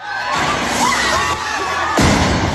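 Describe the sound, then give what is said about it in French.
Firework mortars fired from the street into the entrance hall of a high school in Lyon. A few loud, sharp bangs with crackling bursts ring out over a constant noisy background that includes shouting voices. “Deux mortiers d'artifice sont tirés depuis la rue dans le hall d'entrée du lycée.”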